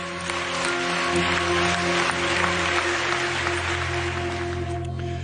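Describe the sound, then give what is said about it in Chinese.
Brief applause following a speech on an international agreement: steady, dense clapping fills the whole stretch at an even level, with a constant low hum underneath. “沈浩文发言完之后咧，就听到有一下嘅掌声啦”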